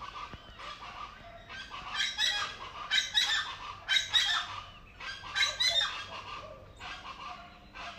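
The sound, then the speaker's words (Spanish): Raspy, honking calls from an unidentified bird come in repeated bursts over a steady low background, rising and easing in loudness without any voices. “No tengo idea qué tipo de ave es este sonido tan especial y particular, es maravilloso.”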